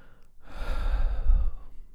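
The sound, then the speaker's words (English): A person takes one big, deep breath during a hand-tapping exercise. The breath is soft and airy, swells to a fuller rush in the middle, then trails off, with no talk over it. “So to begin with, I want you to tap on the side of the hand, take a nice big deep breath.”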